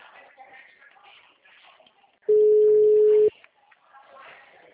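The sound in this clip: A phone places a call: one loud, steady mid-pitched tone lasting about a second, with faint voices and soft rustling around it.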